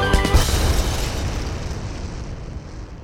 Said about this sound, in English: he played so well and so fast and so hard that the piano exploded